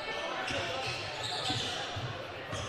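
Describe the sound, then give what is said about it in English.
A basketball dribbled on a court during a game, a few soft bounces under a commentator's steady play-by-play voice. “Dribbling around the arc, Matheson now gives this one off to Miller.”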